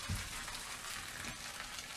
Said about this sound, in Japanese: じゃあちょっと炒めて盛り付けていきます。